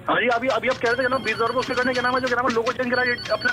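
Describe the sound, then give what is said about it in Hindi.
A telephone rings with an incoming call, a loud electronic ringtone that repeats a bright, melodic pattern of tones without pause across the whole stretch. “एक second phone आ रहा है, रुकिए रुकिए।”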